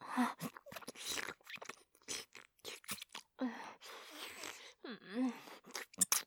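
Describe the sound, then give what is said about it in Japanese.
Wet mouth sounds of someone licking and eating an ice cream, with close smacking, slurping and soft crunchy bites in irregular bursts between brief pauses. “ごめんね。こんなアイス舐めながら、でもとっても美味しくてやめられないの。”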